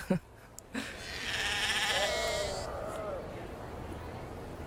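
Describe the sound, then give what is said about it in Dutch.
A flock of sheep bleats in a sustained, wavering cry, preceded by a few brief knocks, with a steady low rustle underneath. “Zo, ik moet even deze kudde schapen verjagen.”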